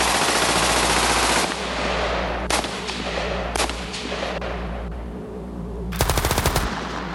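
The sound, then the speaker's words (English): Loud machine gun fire as a unit of soldiers opens fire: sustained bursts of gunfire, with a final stretch of rapid, hammering shots. “Despite the overwhelming fear and rising dizziness, the unit quickly moves into position and opens fire.”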